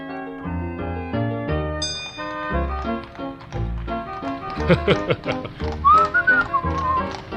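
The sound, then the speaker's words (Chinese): A man whistles a cheerful tune while riding a chariot. The bright whistled melody comes in near the end over bouncy, plucked instrumental music with light tapping. “乃曼坐在马车上，一路吹着口哨”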